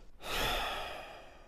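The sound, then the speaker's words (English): A single deep breath, a long, breathy rush of air that starts suddenly, swells, then slowly fades over about a second. It is heard alone with no talk. “take deep breaths.”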